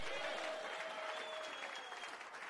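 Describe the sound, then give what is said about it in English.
A church audience claps their hands together in continuous, dense applause that holds steady throughout, fairly faint, with a sustained tone faintly underneath. “Keep clapping. Don't stop.”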